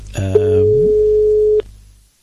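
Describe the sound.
Telephone tone heard while redialing a call: a single loud, steady, mid-pitched beep held for roughly a second and a quarter, with a brief low hum at its start and nothing else around it.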